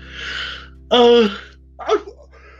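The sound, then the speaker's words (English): A man yawns: a breathy opening, then a loud drawn-out voiced stretch, and a short trailing vocal sound to finish. “Don't be on my show yawning, man.”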